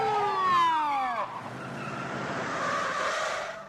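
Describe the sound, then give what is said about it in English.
A police car siren wails down in pitch over a couple of seconds, then gives way to a loud, rough, sustained vehicle noise. “A police car pulls up.”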